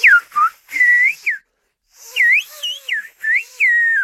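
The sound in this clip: Whistled speech in a Canary Islands whistled language, rendering a short spoken phrase as high, clear, melodic whistles that glide up and down in quick syllable-like bursts, in two phrases split by a short pause.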